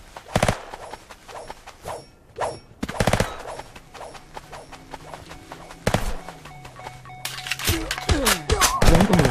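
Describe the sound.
Machine gun fire in a video game comes in sharp, loud bursts of rapid cracks, separated by brief gaps and mixed with other game sound effects.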